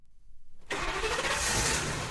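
A bus engine starts at an old station at the beginning of a town run. A few rhythmic cranking pulses give way to a sudden, steady engine roar that holds to the end.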